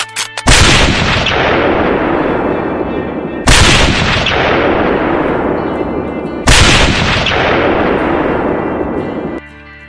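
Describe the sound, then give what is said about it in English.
Three loud gunshots are fired at the president from a grassy knoll. Each is a sharp crack followed by a long rolling decay, and the shots come at even intervals of about three seconds. “Wait a minute. That guy on the grassy knoll's got a gun. He's gonna shoot the president!”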